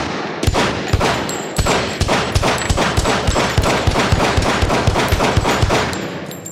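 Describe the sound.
Pistol gunshots crack loudly in quick succession, many sharp reports fired at a fairly steady pace for several seconds with barely a pause, with no voices.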